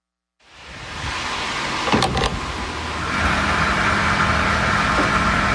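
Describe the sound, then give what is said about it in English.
Diesel being pumped into a vehicle at a fuel station: a steady, loud whirring rush that starts abruptly, with a brief clunk partway through before the flow thickens and carries on evenly. “This is the sound of the most important fuel in the world being bought at a price it's never been bought at before. Diesel moves the lorries that stock your supermarket,”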